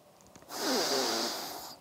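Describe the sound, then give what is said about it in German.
One long, deep breath taken during a vinyasa yoga flow, an airy rush of breath that swells and then slowly fades out, standing alone against a quiet background. “Atme nochmal tief ein und ausatmend setzt du den Fuß hinter dem Gesäß auf, lässt die Hüfte folgen, schenkst dir hier wiederum einen tiefen Atemzug.”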